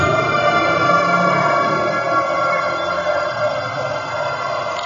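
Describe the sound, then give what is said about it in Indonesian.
An ambulance siren sounds as a loud, continuous electronic wail that holds steady throughout, with no one speaking over it. “kayak gandeng ku ambulan”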